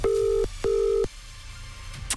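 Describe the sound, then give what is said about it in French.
A telephone ringing tone sounds as an outgoing call is placed: two loud, steady electronic beeps of about half a second each, separated by a short gap and followed by quiet line hiss. “Sans plus attendre, sortez votre téléphone, ça va sonner chez l'un ou l'une d'entre vous. C'est parti, on appelle.”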